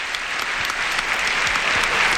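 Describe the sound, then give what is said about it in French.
Sustained, dense applause from a large audience as the Pope and a director-general walk to centre stage beneath UN member flags during a papal visit to France. The clapping is steady and loud throughout, with no talk. “sous les applaudissements nourris, le Saint-Père et le directeur général ont gagné le centre de la scène.”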